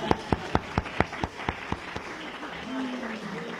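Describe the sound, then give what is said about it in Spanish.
Nine sharp, evenly spaced claps in a steady rhythm, then the clapping stops and a voice speaks. “Muy bien, un aplauso para la gente.”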